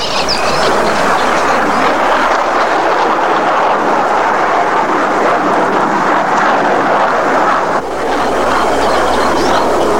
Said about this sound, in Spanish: Y ahora podremos ver cómo destruye un avión controlado por radio.